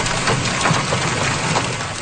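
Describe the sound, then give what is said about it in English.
Hail pelts down during a severe storm in Claresholm, Alberta, a loud, dense rattling patter of hard stones striking surfaces, continuous with no pauses. “That's hail falling in Claresholm, Alberta, about 120 kilometers south of Calgary”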